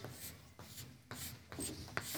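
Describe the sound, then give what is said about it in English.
A diagram drawn by hand makes quiet rasping, scratchy strokes, a few uneven rubbing passes with short gaps between them and no voices. “I want to draw a diagram for you.”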